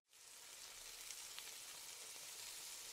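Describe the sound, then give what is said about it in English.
Ham and eggs sizzle in a frying pan for breakfast, a steady, soft, crackling hiss that goes on alone for the whole stretch. “Delicious. Absolutely delicious. Ham and eggs, Mike. Just the sort of breakfast you need.”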